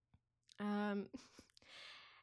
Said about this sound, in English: so I'm gonna take like a really quick breath